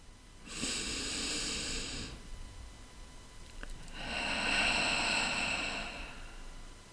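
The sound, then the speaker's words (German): A slow, deep breath in, soft and airy, is followed after a short pause by a longer, fuller breath out. It is quiet, with no talk. “Einen tiefen Atemzug.”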